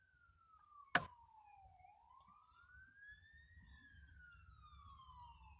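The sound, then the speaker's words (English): Outside noise near Interstate I-75 in Bowling Green, Ohio, on a cold Sunday morning: a low traffic rumble under a siren that wails slowly down, then up, then down again, with one sharp knock early on. “You hear the outside noise of Interstate I-75. In Bowling Green, Ohio. On a Sunday morning.”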